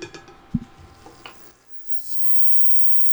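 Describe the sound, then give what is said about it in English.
Faint sizzle of butter melting in a pan on a cooktop set to 300, about medium heat, with a few light taps from stirring before the sound thins out. “I'm going to adjust the temperature down to 300, which is basically medium. I can feel that. And then we'll melt some butter in there.”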